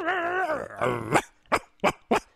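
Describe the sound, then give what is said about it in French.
A person imitates a small dog with their voice: a wavering, drawn-out whining growl, then four short, sharp yaps in quick succession. “Moi aussi, je sais faire le chien.”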